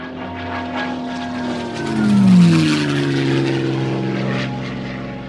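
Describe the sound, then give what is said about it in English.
A Mustang propeller aircraft makes a high-speed low pass, its engine roar swelling to a loud peak, dropping in pitch as it goes by, then settling into a steady rumble. “If you have ever heard a Mustang do a low pass at high speed, you already know it is truly one of the greatest sounds you are ever going to hear.”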